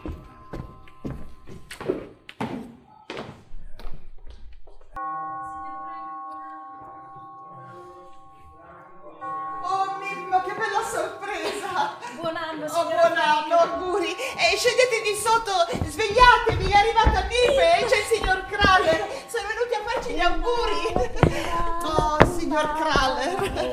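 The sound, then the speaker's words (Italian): Knocking on a door: a few dull, separate knocks near the start, then a long stretch of busier, tonal sound that grows louder. “bussano!”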